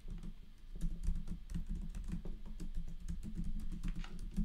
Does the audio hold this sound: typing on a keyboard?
yes